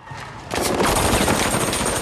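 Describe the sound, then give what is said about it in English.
Rapid machine gun fire from a figure shooting behind him as he runs back past closed gates at the foot of a dark flight of steps. A dense, loud, unbroken rattle cuts in after a brief quieter lead-in and holds steady to the end. “Scribe approaches the gates, the figure runs back, firing a machine gun behind him”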